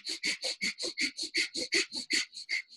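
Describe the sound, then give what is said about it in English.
Breath of fire, the rapid Kundalini yoga breath pumped through the nose: many quick, even, hissing nasal huffs in a steady fast rhythm, all at the same loudness, with no talking. “Breath of fire is from Kundalini yoga, and it's a very funny sounding breath that's through the nose, and it sounds like.”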